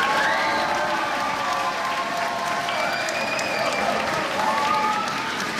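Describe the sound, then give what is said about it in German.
Students at the Wilhelm-Dörpfeld-Gymnasium give big applause to football world champion Chris Kramer after he reads from his book at the school. Steady, dense clapping continues throughout, with high-pitched shouts and cheers rising above it. “Riesenapplaus gestern am Wilhelm-Dörpfeld-Gymnasium für einen Fußballweltmeister. Chris Kramer war da und hat aus seinem Buch vorgelesen.”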